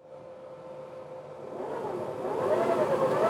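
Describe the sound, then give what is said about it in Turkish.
A motor runs with its cooling fan whirring. A steady mid-pitched tone sits under the hum, and the sound grows louder and rougher partway through, then stays loud to the end. “Bu soğutucu pervane. Bu da pot. Ve bu da motor.”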